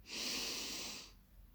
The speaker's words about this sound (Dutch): Dus adem diep in.